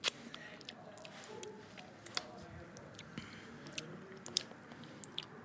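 Mouth sounds of someone tasting white protein powder: many faint, scattered smacks and clicks of lips and tongue over a low background, with no clear rhythm.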